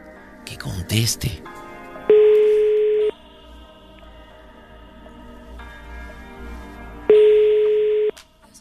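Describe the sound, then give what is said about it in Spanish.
Ringback tone of an unanswered telephone call: two steady, mid-pitched tones of about one second each, separated by a pause of roughly four seconds. “No contesta, pues dame el teléfono de Marifer”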